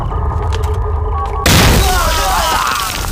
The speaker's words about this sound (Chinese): 什么炮？那是地雷